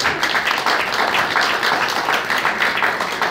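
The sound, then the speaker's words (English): Loud, dense audience applause breaks out during a speech about war and women's rights. The crowd claps continuously and evenly from start to finish without a pause. “okay, keep applauding”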